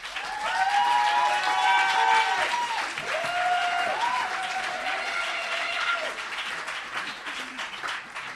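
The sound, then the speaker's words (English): Sustained audience applause at a club performance, a steady wash of clapping that swells early, holds, then thins slightly toward the end, with voices calling out over it. “So if we could have another round of applause for Amanda at Joe's Pub.”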